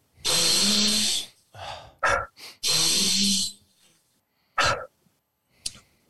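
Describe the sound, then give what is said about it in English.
Deep, forceful breaths in and out, demonstrating the Wim Hof breathing method: two long, loud, rushing breaths with shorter breathy puffs between and after them, then a few brief, quieter breaths. “You go 30 deep breaths in, relax.”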